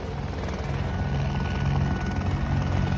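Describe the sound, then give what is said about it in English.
A helicopter drones steadily with a loud, low rotor throb and a harsh, screeching upper layer, continuous throughout with no voices. “That screeching noise that you can hear, that's the sound of a chopper.”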